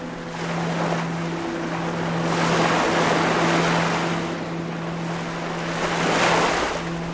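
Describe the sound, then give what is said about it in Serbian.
Sea waves surge and wash in broad rolling swells, swelling and easing twice, with wind buffeting and a low steady drone underneath; no voices. “More! Veliko, nemjerno more. Tu si sad, more, da otplaviš sav prah i težinu.”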